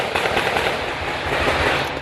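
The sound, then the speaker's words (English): A hail of gunfire as officers confront a gunman: a dense, continuous rattle of rapid shots with no pauses, loud and crackling throughout. “This hail of gunfire is thought to be the moment Long was confronted by officers.”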